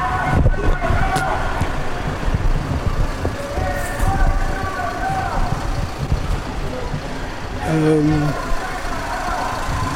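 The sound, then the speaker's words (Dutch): A police car engine runs with a low, steady rumble near a canal bridge, while people talk over it. “Dit is een motor van de politieauto.”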